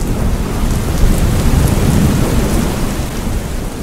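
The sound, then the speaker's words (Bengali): Heavy rain pouring down during a storm with thunder: a loud, continuous roar of downpour with a deep low rumble beneath it, steady throughout with no voices. “তাহার পরদিন বিকেলের দিকে মুষল ধারে বৃষ্টি এবং সঙ্গে সঙ্গে ঝড়ও আরম্ভ হইল।”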